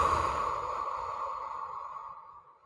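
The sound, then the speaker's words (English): A deep breath drawn through the nose during a calming exercise: one long, airy rush of breath that slowly fades away. “One more time, in through the nose, deep breath. Hold it and let all that negativity go.”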